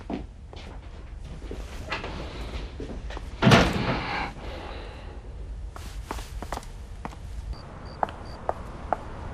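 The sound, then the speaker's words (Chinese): A door is shut with one sharp, solid thud partway through, surrounded by soft footsteps and light shuffling. “过来，把门关上。”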